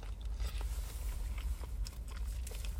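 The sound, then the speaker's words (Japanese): Faint crunching and chewing of a Lawson mixed vegetable sandwich with ham and crisp cucumber, many small soft bites and chews in a quick, uneven rhythm. “これ、ハムもね、しっかり味しますよ。うん。キュウリもシャッキシャキだし。”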